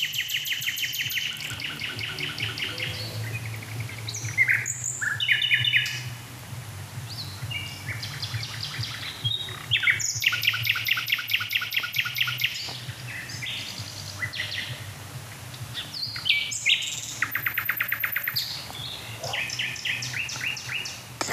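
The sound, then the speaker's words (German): A blackbird sings in nightingale-like fashion, giving bright, varied phrases separated by short pauses over a low, steady hum. “Und dann gehe ich mal rüber zu der Hotspot-Nachtigall-Amsel, die ich versucht.”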